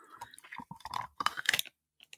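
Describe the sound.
Opening a pudding cup and eating from it: crinkly rustling, sharp clicks and soft smacking sounds come in several short, irregular bursts, then near silence.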